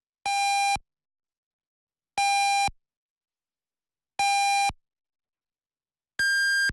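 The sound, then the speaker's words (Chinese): Radio hourly time signal: four evenly spaced electronic beeps about two seconds apart, three matching mid-pitched tones and then a higher final tone, each clean and alone against silence. “安徽经济广播主持人梁瑞为您报时，现在是北京时间23点整。”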